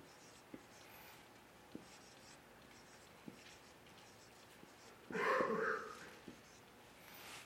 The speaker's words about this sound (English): So maybe I'll do it this way. I'll write Christian behaviors, or how did I have it here? Proper behavior.